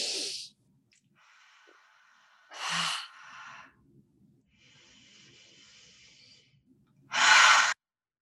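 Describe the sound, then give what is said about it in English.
Three deep breaths in through the nose and out through the mouth during a guided relaxation, heard as three loud, breathy airflow bursts spaced apart, with fainter hissing air between them. “And then just taking three deep clearing breaths in through the nose and out through the mouth.”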